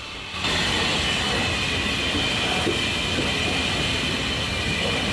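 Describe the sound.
The Flying Scotsman steam locomotive passing on the track: a steady, loud rumble of rail noise with faint clatter and a thin high whine running throughout, starting abruptly after a brief quiet moment.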